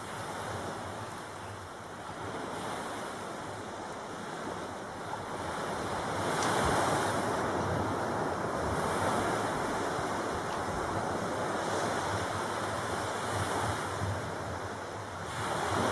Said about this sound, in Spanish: ¿Os parece que escuchemos entonces el sonido un poco del mar que tenéis aquí?